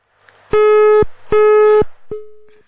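A telephone busy tone sounds after a call is disconnected: three loud, steady electronic beeps in an even rhythm. The first two are long and equal, and the third is shorter and fades out.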